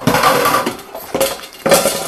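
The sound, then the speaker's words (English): A couple of hash brown patties go into an air fryer basket with a few sharp metallic clatters and clinks. The loud knocks are separated by short pauses, with no voices. “we're going to put in a couple of hash brown patties into the air fryer, and”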